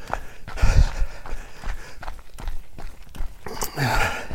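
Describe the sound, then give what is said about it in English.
Running footsteps on a small road leading into a forest give a loose rhythm of soft thuds, mixed with steady broad rustling noise throughout. “I just turned off the bigger road at the Oak Tree, and I'm now running on a smaller road into the forest.”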